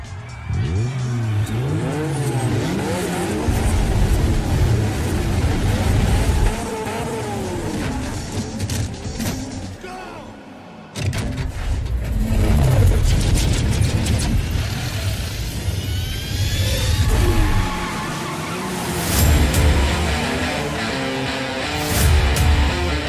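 Cars in a street race roar with engines revving up and down and tires squealing, a loud, sustained rush of engine noise with sweeping pitch changes that runs throughout.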